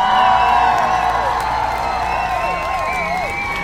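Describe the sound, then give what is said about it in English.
An audience applauds and cheers for the hosts of a law and sports talk show, a loud, steady wash of clapping with whoops and shouts that eases slightly toward the end. “And now, without further ado, put your hands together for the host of Justice for All”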